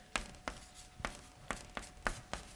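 Pen strokes of someone drawing a diagram: seven short, scratchy strokes in a steady, slightly uneven rhythm, faint and alone.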